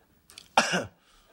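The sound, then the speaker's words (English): A single short, sharp cough from a patient during a medical exam, preceded by a faint breath. Silence follows. “Turn your head and cough.”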